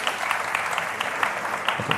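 Audience applause from a crowd answering a performer's call, a dense, steady patter of many hands clapping throughout at an even, moderate level.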